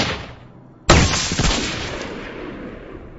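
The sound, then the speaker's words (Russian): A rifle shot: one sharp, loud crack with a long rolling, booming tail that fades slowly. It follows the dying end of an earlier blast, with no voices. “Винтовка толкнула меня в плечо. Но только я опять поймал противника в прицел, тут же выстрелил второй раз.”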